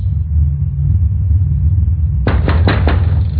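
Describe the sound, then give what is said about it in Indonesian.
Quick knocks on a window at night, a tight burst of several sharp raps arriving suddenly over a constant low rumble, fairly loud against the steady background. “Suara itu cukup keras ku dengar. Hingga aku penasaran sekali melihat siapa yang mengetuk jendelaku malam-malam begini.”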